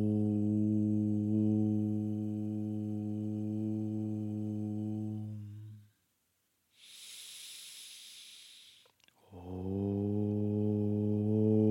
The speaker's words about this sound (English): And the sound is Om. So we're going to do that toning now. Om.